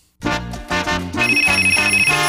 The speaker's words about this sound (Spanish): Siempre tempranito, ring, ring. Óyelo sonando.